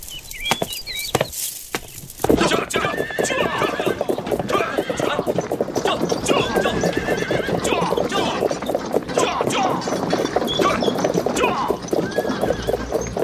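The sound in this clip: Horses pulling the Grand Empress Dowager's carriage procession clop and whinny without pause after a short quieter opening, a dense, busy stream of hoofbeats with neighing above it.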